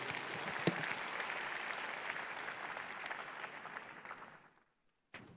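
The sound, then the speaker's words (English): An audience applauds at a Sunday church service in dense, steady clapping that holds loud for about four seconds, then thins out and fades to silence. “Give Jesus a big hand of praise.”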